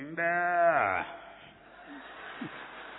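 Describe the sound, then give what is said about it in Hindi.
A cow's calf gives a single harmonic, bleating call lasting under a second, holding its pitch and then dropping at the end, followed by a quieter pause. “ये लग रही गाय, गाय का बछड़ा है वो”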